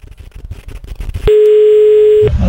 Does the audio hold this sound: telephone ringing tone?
yes